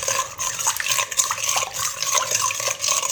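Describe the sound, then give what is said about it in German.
Lukewarm water and yeast are stirred together for bread dough, giving a steady swishing and scraping that runs throughout without a pause. “dann tue ich direkt so 350 Milliliter lauwarmes Wasser dazu. Nicht zu heiß, das ist ganz wichtig, sonst geht euch die Hefe da drin ein quasi. Dann rühren wir das Ganze ordentlich durch.”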